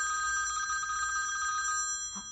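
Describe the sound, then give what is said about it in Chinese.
A delegation's telephone rings with a rapid, steady electronic trill of many quick pulses. The ringing cuts off near the end and is followed by a brief faint sound. “代表团电话。”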